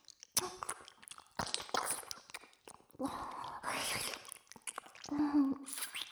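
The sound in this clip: ASMR mouth sounds of nibbling on the listener's other ear. Soft, wet clicks, smacks and biting noises come in irregular clusters separated by quiet gaps, all at a faint level.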